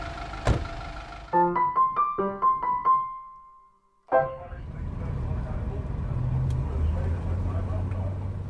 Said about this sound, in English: Another lovely sunny day, riding my black cab along the streets of London.